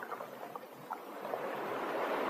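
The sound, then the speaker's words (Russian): Ocean waves crash in a continuous rushing roar. The broad, hissing surf builds slightly louder toward the end, with no voices. “И под сумасшедший крик чаек, под неустанный грохот волн, я не перестаю вновь и вновь задавать вопросы, которые требуют ответа.”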